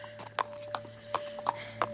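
Horse hooves clip-clop in a steady walking rhythm, hollow knocks landing at regular intervals over a quiet background with a faint steady hum.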